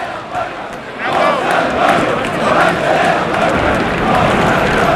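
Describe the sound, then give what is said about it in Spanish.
Crowd of about 300 people in a bullring arena, a continuous roar of shouting voices that swells after the first second and stays loud. “Ahí podemos oír todos esos sonidos que se generan en el ruedo. Y debe de haber, yo sin exagerar, que hay unas 300 personas.”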